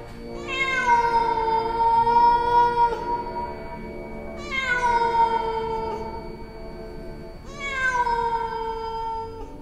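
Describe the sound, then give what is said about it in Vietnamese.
A cat meowing at night, three long, drawn-out, loud yowls, each about two to three seconds, starting high, dipping quickly, then holding a steady, wailing tone, with brief pauses between. “Trong đêm tối, cái tiếng kêu của nó vang lên như là tiếng mèo kêu vậy.”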